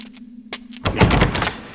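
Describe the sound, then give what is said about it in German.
A door is shut and blocked with one heavy thunk, followed by a short burst of rattling, scraping noise. A low hum is heard before the impact. “Mist! Die haben die Tür blockiert.”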